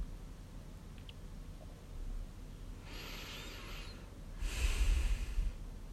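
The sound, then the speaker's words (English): A slow, deep breath taken during a calm guided exercise: two soft, airy rushes of breath separated by a short pause, with the second one heavier and fuller. Nothing else is heard. “And take another deep breath.”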